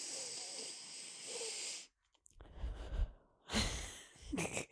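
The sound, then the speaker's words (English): A deep breath: a long, airy rush of breath, then a short pause and further breathy puffs, faint, with no words spoken. “I think I need to start doing like a deep breath. Maybe that will help me not react so fast.”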